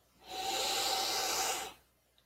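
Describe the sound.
A big, deep breath taken during a tapping exercise: one long, steady, hissing rush of air that swells in, holds evenly, then tails off into quiet, heard alone without speech.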